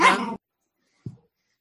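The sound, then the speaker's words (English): A dog barks twice: a louder, longer bark, then a short, quieter one after a brief silence. “Sorry, my dog is barking.”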